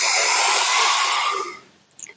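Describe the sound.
A long, deep breath drawn in through the nose during a slow guided breathing exercise, filling the belly: a loud, airy hiss held for over a second, then fading away, with a brief faint rustle at the end.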